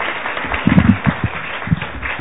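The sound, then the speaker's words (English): Audience applause greets a guest speaker before she has said a word: a steady, dense wash of clapping that sounds slightly muffled, with a few louder swells and a voice briefly heard over it. “That's applause before I've even said a word. That's amazing.”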